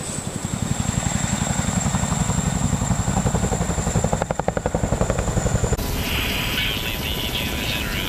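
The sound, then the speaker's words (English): A Chinook helicopter, adapted by elite forces with long-range fuel tanks and in-flight refuelling, flies with a loud, steady, rapid rotor thump under a high whine. The tone shifts near the end. “These elite forces have adapted their Chinooks with long-range tanks and the ability to refuel in flight, and added classified weapons and electronics to this remarkable aircraft.”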